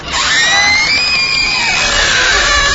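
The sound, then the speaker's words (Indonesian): A woman screams in fright and panic as her bedroom door suddenly opens. The scream is long, loud and high-pitched, sustained without a break for nearly three seconds. “Karena kaget, panik dan takut, aku langsung berteriak.”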